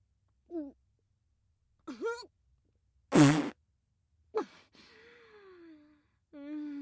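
A fart from a woman with a bloated stomach: one loud, short, rasping blast in the middle, surrounded by her brief breathy vocal sounds and sighs.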